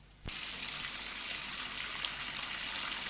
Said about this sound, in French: Il prend un gant qui se trouve sur le bord du lavabo et le mouille.